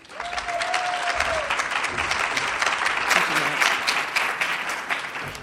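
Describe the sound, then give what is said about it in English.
An audience at a business education event applauds steadily to welcome a speaker. The clapping is dense and sustained at a constant level for several seconds. “Please give Deborah a warm welcome.”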